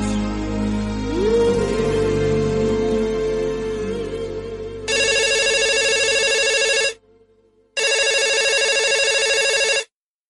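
Telephone ringing for an incoming call on a radio call-in show: two long, bright ringing bursts separated by a brief pause, coming after a few seconds of music.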